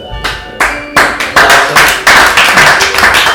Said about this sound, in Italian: Pagato in alcol e patatine per venire a applaudirci.